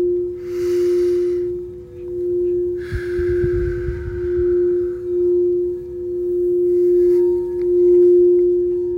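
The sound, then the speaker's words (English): Singing bowls resonate during a meditation, a steady ringing tone with slow wavering swells in loudness that sustains continuously on its own. “What I want you to do is to just tap into these frequencies, these sound bowls. Allow the sound to resonate with your spirit.”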